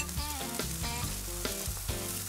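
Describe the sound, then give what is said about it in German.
Garden peppers sizzling on a grill give a quiet, steady crackle of frying, with a melodic tonal layer over it. “Pimentos aus dem Garten auf den Grill.”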